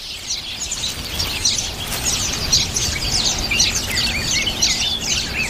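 Black-faced grassquits chirp at their nest while the adults feed their nestlings. Many high, thin chirps and twitters overlap in a steady, busy stream that runs through the whole clip.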